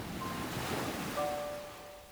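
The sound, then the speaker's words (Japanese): Calm sea and wind at a harbour after a storm: a soft, steady wash of water and breeze, faint and even throughout with no distinct wave breaks. “嵐の去った後の海はとても静かで、南から運ばれてきた風はとても心地よかった。”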